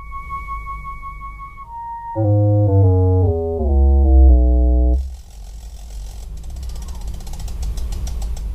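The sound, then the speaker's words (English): Tones from a Light Sound Project device as a cover slides over its light sensor: a steady electronic beep, then buzzy chord-like tones that step lower in pitch several times before cutting off into faint noise. “It's a small rectangular device, and in a video, you see the user slowly move a cover over its light sensor, which sounds like this.”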